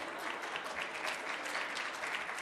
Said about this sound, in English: you really should not clap